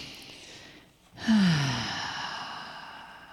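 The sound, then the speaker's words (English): A full, deep breath drawn in during a guided meditation: a single breathy rush begins just past the first second, swells quickly, then eases off slowly and stays audible to the end, with no talk over it. “And take a nice, full, deep breath in.”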